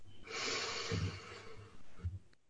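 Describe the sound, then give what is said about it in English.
A long, deep inhale at the start of a guided meditation: a steady, breathy rush of air lasting about two seconds, heard alone without talk. “Taking a deep breath in,”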